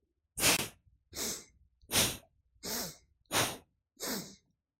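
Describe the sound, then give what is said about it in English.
Six breaths drawn through both nostrils during a guided breathing exercise, each a soft, airy rush, evenly spaced and alone. “So take a breath in through both nostrils, begin.”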